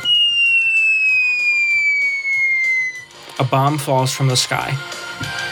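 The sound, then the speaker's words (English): A falling-bomb whistle from a video game hazard: one steady, clear tone slides slowly downward for about three seconds, then stops as a person starts talking. “A bomb falls from the sky.”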